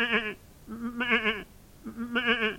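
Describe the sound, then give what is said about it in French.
A goat bleats three times, each call a loud, quavering, nasal cry with a wavering tone and short pauses between, on a farm with no voices. “Il ne pense qu'à s'amuser avec la chèvre”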